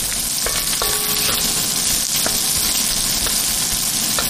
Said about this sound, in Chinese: 上剁碎的腊肉、干辣椒和青花椒，热锅煸炒，再倒入牛肝菌，放入大量的蒜